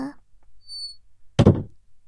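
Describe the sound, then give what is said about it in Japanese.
A door being shut: one solid, dull thud with a brief rattle, standing out sharply after a short bit of voice and a quiet pause. “あー、ちょっと先輩、ドア閉めないでくださいよ。”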